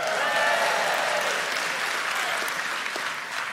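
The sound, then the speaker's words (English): A church audience claps and cheers loudly for a single note, middle C, when asked to make noise for it. Steady, dense applause with mixed shouts runs throughout and eases slightly toward the end. “Anybody who thinks it's a good note, make some noise for middle C.”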